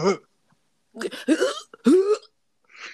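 A person gags and coughs in a few short, throaty bursts, with strained voiced retching sounds separated by brief pauses.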